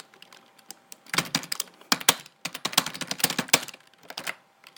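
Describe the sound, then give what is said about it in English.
Rapid typing on a computer keyboard while writing formatted text: many sharp, irregular keystroke clicks in quick bursts with brief pauses between them and no voices. “Let's try to write something with some additional formatting characteristics.”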